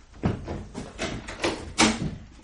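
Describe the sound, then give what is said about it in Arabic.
A house door is opened by a mother for her son in a dramatized scene, giving a few heavy, dull thumps and scrapes at moderate loudness. “أنا يا أم سفيان، افتحي الباب.”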